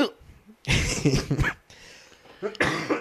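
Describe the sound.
Coughing after a sip of whiskey went down the wrong way: harsh, choking bursts in two fits, broken by a quieter gasping stretch between them.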